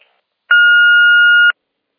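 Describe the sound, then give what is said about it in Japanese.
An answering machine gives a single steady, mid-high beep lasting about one second. It is loud and clean, with silence before and after. “ご用のある方は、ピーッとなりましたら、お名前とご用件を勝手にどうぞ。”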